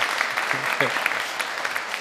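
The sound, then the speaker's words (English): Audience applause at a lecture event, dense steady clapping that fills the whole clip at a fairly loud, even level. “That's applause.”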